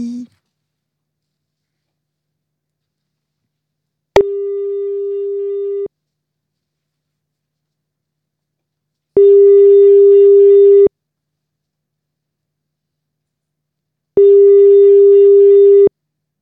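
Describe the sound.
Telephone ringback tone on an outgoing phone call: three long, steady, evenly spaced beeps with silence between them, preceded by a brief click.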